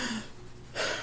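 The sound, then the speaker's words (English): A man pants as he catches his breath, with a couple of loud, rough breaths, one at the start and another near the end. “I might add, while he's catching his breath”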